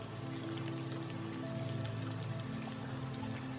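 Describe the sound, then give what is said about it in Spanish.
Soft, steady rain pattering on a surface, a faint continuous hiss of many small drops with no breaks or other sounds. “Regocíjate con este bienestar, escuchando el sonido de la lluvia,”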